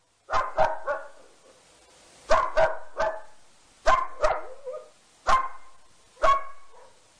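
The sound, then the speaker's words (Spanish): A dog barks in many sharp, loud barks, mostly in quick pairs or triplets with short silent gaps between, heard on its own without talk. “Con ladrido de perro de fondo, así es la libertad por Oscar del Cerro”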